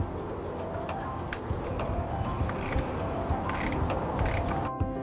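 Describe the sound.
A wrench tightens an engine oil filter: irregular ratcheting clicks and metallic mechanism noises over a steady background, with a few sharper clicks standing out.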